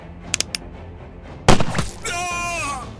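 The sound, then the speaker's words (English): A flintlock pistol fires a single sharp, loud bang about midway through, after a few faint clicks, and a drawn-out wavering vocal cry follows right after the shot. “You shot me. You shot me in the belly.”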